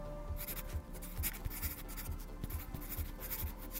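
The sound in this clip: Someone writes on paper, producing a soft, continuous scratching with a quick, regular pattern of light strokes and no voices.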